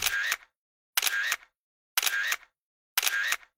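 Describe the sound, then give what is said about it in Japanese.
Camera shutter sounds as a security camera captures the culprits' faces: four bright, crisp bursts evenly spaced about a second apart, with silence between them. “とりあえず防犯カメラで犯人たちの顔を記録しておこう。”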